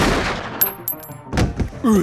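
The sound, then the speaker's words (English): A few sharp gunshot cracks ring out in a western audio drama shootout. They are short, loud percussive bangs spaced unevenly over about a second and a half, with a muffled thump at the end. “You just shot Jesse! I don't want to kill you as well”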